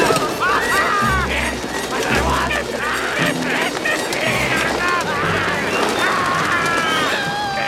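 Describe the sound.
A flock of pigeons swarms onto robbers and knocks them to the ground, a busy, continuous flurry of bird calls and chirps over repeated low thumping pulses.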